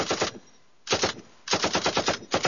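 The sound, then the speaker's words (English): Thompson submachine gun fire during target practice: four bursts of rapid, sharp shots separated by short pauses, the last burst cut off, loud and without talk. “A little more target practice. I think we're starting to zero in. It's hard to shoot a Thompson without anybody noticing.”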